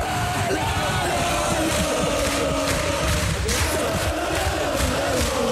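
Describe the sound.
Football fans cheering the promotion of Elversberg to the Bundesliga, a loud, sustained roar of many voices yelling and whooping together without a break.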